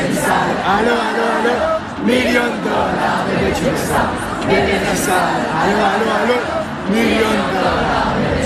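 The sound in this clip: A large concert crowd sings a pop song together a cappella before the show begins. The dense, continuous mass of voices stays loud throughout, with shouts and whoops mixed in.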